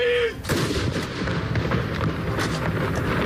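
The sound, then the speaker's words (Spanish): Cannon salute fired in Oslo for royal mourning after the king's death: a short tone, then a heavy blast followed by sustained low rumbling that stays loud to the end. “Este es el sonido de los cañones esta mañana en Oslo.”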